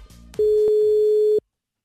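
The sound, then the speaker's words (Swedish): An outgoing telephone call's ringing tone sounds as a single steady, mid-pitched beep lasting about a second, preceded by faint low line noise and followed by silence. “Han ska få ringa till Hässleholm faktiskt.”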